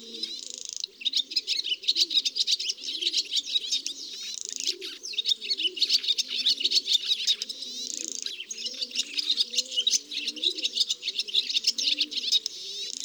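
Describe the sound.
A barn swallow sings a creaky twittering song: rapid, continuous high chirps and rattles over a lower, grating warble. It runs steadily for about thirteen seconds with only a couple of brief breaks.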